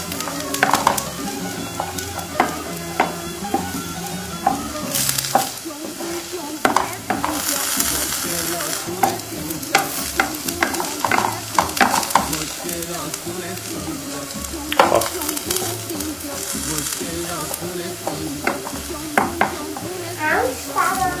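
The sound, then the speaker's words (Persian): Potatoes fry in hot oil in a pan while being stirred. A dense, steady sizzle runs throughout, with many sharp scraping clicks and knocks from the stirring. “دارم سیب زمینی سرخ میکنم”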